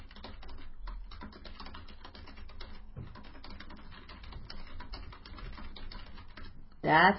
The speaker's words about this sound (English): I'll type it in the room too. I'll say it, then type it, and then read it again.